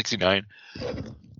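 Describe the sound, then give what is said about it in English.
One sharp, voiced sneeze bursts out, followed by a short, softer voiced breath or murmur. “So all morning, I didn't sneeze once. We go to record this, and we're like 5 minutes in, and I'm sneezing.”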